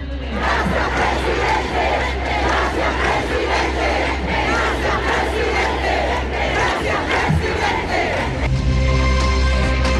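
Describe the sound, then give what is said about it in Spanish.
Supporters chanting for Gabriel Boric at a rally, a loud, unbroken roar of many voices with a rhythmic chanted cadence that fills the whole stretch. “un discurso, como lo decíamos, que duró casi 20 minutos y que tuvo acompañado de múltiples cánticos a favor de Gabriel Boric por parte de sus adherentes. Escuchemos parte del ambiente de ese momento.”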